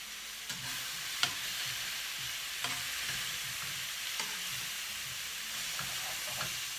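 Salmon sizzles as it fries in a pan, seasoned simply with black pepper: a steady, bright hiss of frying with a few faint pops and crackles scattered through it.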